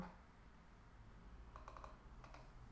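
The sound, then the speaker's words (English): Typing on a computer keyboard: a quick flurry of faint key clicks, then a brief pause and a couple more taps, soft against a low background hum. “Oh, I'm totally typing it wrong.”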